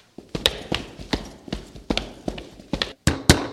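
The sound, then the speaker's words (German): Soldiers' footsteps climb a staircase: a steady run of many sharp thuds and taps in quick, regular rhythm, fairly faint and without voices. “Soldaten kommen die Treppen hoch.”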